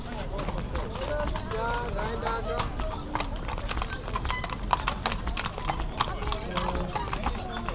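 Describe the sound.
A horse-drawn carriage rolls along as the hooves clip-clop in a brisk, even rhythm of many sharp clicks, with voices talking alongside.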